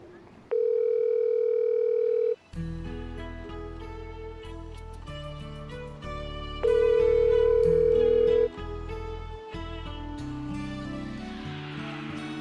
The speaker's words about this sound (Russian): Сейчас вас соединят с жителем Петербурга.